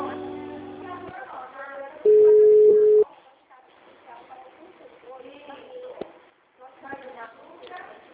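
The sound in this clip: A single loud, steady telephone tone of about one second sounds after a dropped call, with people talking before and after it.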